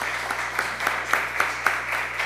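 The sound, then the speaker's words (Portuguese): Applause at a municipal council session for a guest receiving an honorary citizen title: steady, fairly faint crowd clapping with a few sharper claps standing out, over a low constant hum. “Uma salva de palmas.”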